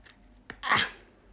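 A crisp crunch of biting into buttery shortbread, a single short snap preceded by a faint click, standing alone against quiet background.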